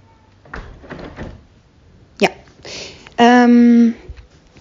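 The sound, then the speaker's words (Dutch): A window is closed. Brief talk comes first, then a dull thud, a short scraping slide and a loud squeaky creak, with muted background noise from the neighbours. “Um, even het raam dicht trouwens hier. Een beetje achtergrondgeluid van de buren.”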